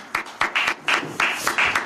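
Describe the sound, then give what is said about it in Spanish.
Audience applause: a brief, fairly loud wash of clapping hiss, punctuated by regular louder bursts of claps. “Tranquilízate, coronel Tapioca. Un aplauso.”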